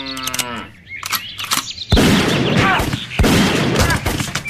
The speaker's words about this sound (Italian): E poi mi ha sparato nei testicoli.